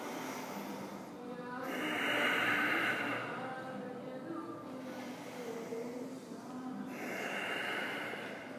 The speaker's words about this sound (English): So exhale left, inhale, exhale right. Get three more.